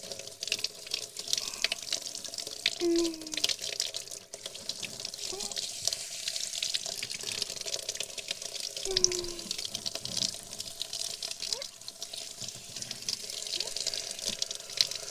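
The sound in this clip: Running water wets hair for a hair wash after waking, a continuous faint splashing hiss with soft drips and a couple of brief squeaky tones.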